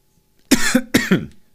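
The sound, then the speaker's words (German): Coughing after choking on something: four loud, harsh coughs in two quick pairs, with no talk. “Entschuldigung, ja, aber ich habe mich verschluckt.”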